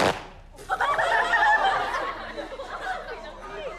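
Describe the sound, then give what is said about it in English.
A Chinese martial arts fan is snapped open sharply with a crisp, percussive crack, followed by a ripple of laughter and chatter from the students watching. “In Chinese martial arts, this fan is used as a weapon. When you open it sharp.”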